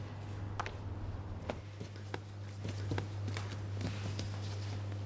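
Sourdough is slapped and pushed on a floured work surface, giving a series of soft, irregular thuds and dull smacks over a steady low hum.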